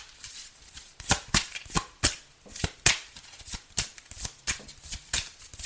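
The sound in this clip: Playing cards being shuffled and dealt during a card game in which more cards are requested: many crisp, papery snaps and flicks in an irregular rhythm, with no talking.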